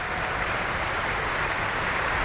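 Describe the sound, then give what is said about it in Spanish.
Dense, steady audience applause fills an opera house at the Bayreuth Festspielhaus as the cast takes its bows. The clapping stays loud and unbroken for the whole clip, with no voices. “Vamos a compartir esta emoción que vive el público del Festspielhaus de Bayreuth, pues escuchando esos aplausos que van dando al elenco”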